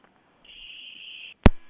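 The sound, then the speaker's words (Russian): A busy tone sounds after a listener's phone call to a radio show drops. One steady, high beep lasts about a second and is followed by a single sharp click. “Какой-то странный день сегодня. Странный. Все звонки да, срываются.”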